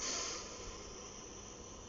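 A single breath drawn in during a breathing exercise while one arm is raised, a soft airy hiss that is strongest at the start and then settles into a quiet, steady rush.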